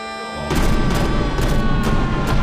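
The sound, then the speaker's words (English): Cannon fire from a ship's line of cannons, with cannonballs slamming into the side of a rocky island: a rapid series of heavy booms and crashes over dense sustained orchestral music. “Cannonballs pepper the side of the rock as a line of cannons fires through the gun ports.”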